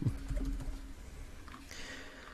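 Typing on a computer keyboard, heard as a quiet, irregular patter of soft key clicks over a low hum.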